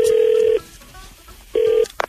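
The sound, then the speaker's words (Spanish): A home telephone rings with two loud electronic bursts, a longer one then a shorter one, with a quiet gap between. “Te he dicho mil veces que no conteste el teléfono de mi casa. Estaba sonando.”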